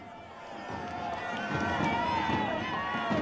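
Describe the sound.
A large crowd of many thousands fills St Peter's Square, chanting Viva il Papa. The mass of mixed voices forms a steady, loud wash that swells slightly over time, with no clear individual words.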